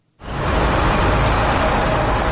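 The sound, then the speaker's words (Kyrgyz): Traffic jam on the main streets of Bishkek: a loud, steady roar of vehicle noise starts abruptly and holds without pause. “Көч абал режиминин бүтүшү менен Бишкектин ири көчөлөрүндө мурдагыдай унаа тыгындары пайда болду.”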